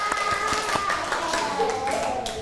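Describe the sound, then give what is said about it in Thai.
Students in a classroom clap for themselves, producing a series of sharp, irregular hand claps. A woman's voice talks over the clapping. “เก่งมากๆเลยค่ะปรบมือให้ตัวเองหน่อย”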